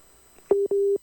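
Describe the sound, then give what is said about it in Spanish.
Telephone tones signalling a dropped call: two clean, steady beeps at the same pitch, a short one followed by a longer one, alone and loud against near silence. “Ahí se cortó un poquito la llamada. Son los tonitos que siempre nos alertan de eso.”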